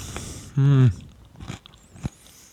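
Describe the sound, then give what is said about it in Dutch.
Chewing over breakfast: a hummed voice is followed by a few quiet, crunchy bites and mouth sounds. “Ik zit hier aan mijn ontbijt.”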